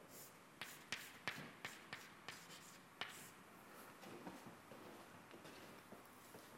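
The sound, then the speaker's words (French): A pen scratches on paper as someone writes out a maths expression by hand: a quiet run of short, distinct strokes, crisper in the first few seconds and then softer and more blurred. “Je vais écrire quelque chose qui n'est pas correct.”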